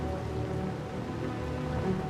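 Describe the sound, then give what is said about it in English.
Steady, even hiss of wind and rain around a search aircraft flying over the sea in worsening weather, with a low constant drone underneath and no distinct individual drops. “It's becoming impossible to hold line and speed in the wind and rain.”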